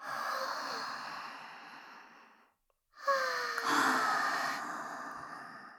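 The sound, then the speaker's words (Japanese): A deep breath in and out: two long, breathy rushes of air, split by a brief silence, each fairly loud and fading slowly. “胸いっぱいに吸い込んで、私たちも癒されましょう。 はい、 じゃあ 深呼吸。”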